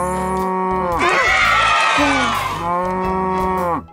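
A cow moos in one long, loud, drawn-out call lasting nearly four seconds. The tone wavers and roughens in the middle before steadying and cutting off abruptly.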